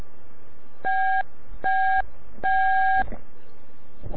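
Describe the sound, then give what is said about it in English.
DTMF keypad tone for the B key, played as a signal to a radio repeater: three steady two-note electronic beeps, the third noticeably longer, followed by faint low rustling. “And here's the B.”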